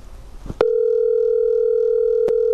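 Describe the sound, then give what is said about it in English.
A telephone tone sounds while a number is being called. A click sets off a steady, loud, even tone that holds unbroken to the end, interrupted only by one brief click. “So in January 2021, I dialed up the mystery Zach to see what I could learn from him.”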